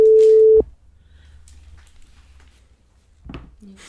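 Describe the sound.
Telephone line tone on a call that is rejected: a single steady, low beep lasts just over half a second and cuts off abruptly, followed by near silence and a brief faint noise at the end.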